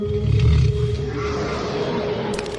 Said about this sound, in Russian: Саблезубые тигры.